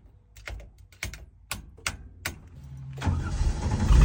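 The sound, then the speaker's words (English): A supercharged car engine, fitted without a water pump, alternator or power steering pump, gives several sharp cranking bursts, then catches and settles into a loud, steadily building running roar. “Oh! Sounds like it's running much better, but I'm gonna let it warm up a little bit.”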